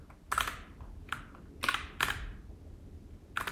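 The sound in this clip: Keystrokes on a computer keyboard, five sharp, separate clacks at uneven intervals, each with a short bright tail, heard alone.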